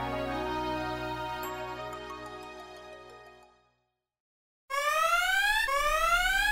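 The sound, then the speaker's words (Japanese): Pilot interference limit warning alarm: a sustained, faint electronic tone fades out into a short silence, then rising electronic sweeps repeat in quick succession. “ホトキシパワー、ジェットジオールに異常流入、パイロット干渉限界警告。”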